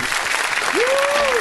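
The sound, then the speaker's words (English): A host clapping for himself, a brisk, steady patter of hand claps joined halfway through by a voice sliding up into a drawn-out held tone that drops away at the end. “Clap for myself because weren't clapping, so I had to like, you know what I mean?”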